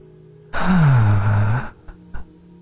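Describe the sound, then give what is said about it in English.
A deep breath taken and released as a long, voiced sigh lasting about a second, with a low tone that falls slightly, followed by two faint short sounds. “Instead, like, we just take a deep breath here.”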